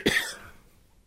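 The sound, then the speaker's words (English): A single sharp human cough bursts out at the start, then trails off into a faint fading tail and near silence. “Sorry, I just coughed.”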